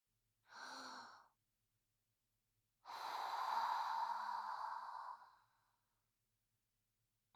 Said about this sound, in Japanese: やば、ちょっと緊張してきた。深呼吸しよう。